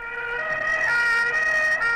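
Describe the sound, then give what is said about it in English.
An ambulance siren wails as the vehicle races through the streets of Rome, a loud, steady, high-pitched tone held without a break and with only slight wavering. “an ambulance races through the streets of Rome”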